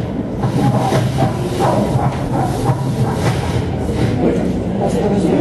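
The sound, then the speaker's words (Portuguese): Locomotive passing by, a loud continuous rumble with hissing and rhythmic rail clatter that stays strong for the whole stretch. “Passa uma locomotiva aqui.”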